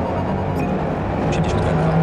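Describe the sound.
Race car engine roaring at nearly 200 km/h in the Forza Motorsport video game: a steady, dense, continuous drone with a low rumble and no clear breaks.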